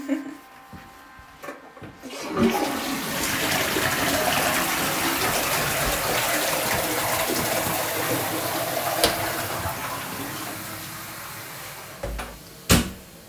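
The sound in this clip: A toilet flushes with a loud, rushing gush of water that lasts about ten seconds before draining away. A few light knocks sound just before it starts and again after it ends.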